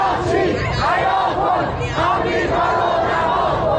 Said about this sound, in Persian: شعار شماری از هواداران نظام در مقابل نمایندگی وزارت خارجه در مشهد که شنبه شب به تهران هم رسید.